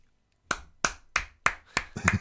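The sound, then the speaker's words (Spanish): One person clapping alone: a steady run of sharp, separate hand claps at an even, unhurried pace, with the last few bunched slightly closer together. “Uno solo aplaude.”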